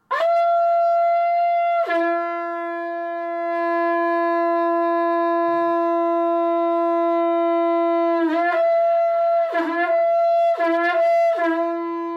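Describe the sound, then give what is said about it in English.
A shankha conch shell horn sounds a loud, sustained blast that drops to a lower held pitch after about two seconds. It holds that lower note steadily, then ends in several short, broken pulses. “That sound is a shankha. It's a horn made from a conch shell, and it's often played in the morning or in the evening as a way of giving thanks.”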